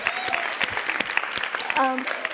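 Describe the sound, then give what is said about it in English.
An audience claps for the men helping out at a church gathering, with quick, busy applause throughout and a brief voice rising over it near the end. “we have men out here helping us, which is just, let's just clap for them sitting here.”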